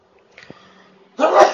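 A single loud, sharp sneeze bursts out near the end, after a quiet stretch with only faint low sounds.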